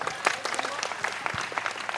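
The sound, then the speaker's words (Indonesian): Applause from an audience at a university gathering, softer and more scattered, with many individual hand claps popping out sharply over a lighter bed of clapping. “Lah, tepuk tangan untuk Cak Nun.”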